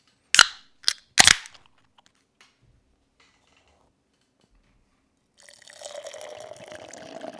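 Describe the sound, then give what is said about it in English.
A can of hazy IPA is cracked open with three sharp, snapping clicks in quick succession. After a long quiet gap, a steady fizzing, liquid hiss follows. “For now, let's get going with the third beer lineup. Let's crack open the Hitchhiking Ghosts.”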